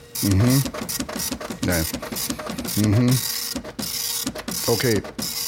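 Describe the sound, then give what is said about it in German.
A printer printing a page gives off a rapid mechanical clatter and whirr that runs steadily throughout, while a person talks over it. “Ja, Moment, ich drucke jetzt hier mal, ich gehe mal hier auf Drucken. So, jetzt druckt er.”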